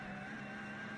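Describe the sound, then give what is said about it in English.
Faint, steady engine drone from the number 900 Porsche 911 GT3 Cup race car on track, a continuous harmonic hum with no clear rise or fall across about a second. “Number 900, Porsche 911 GT3 Cup car is the noise you can hear coming down to.”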